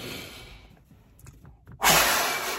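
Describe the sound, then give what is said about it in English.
A fast, forceful exhale follows a deep belly breath. A breathy rush fades into near quiet, then an abrupt, loud blast of air bursts out and slowly trails off. “take a deep breath. Fill up your stomach with air. And then I want you to breathe out fast. So it's gonna look like this.”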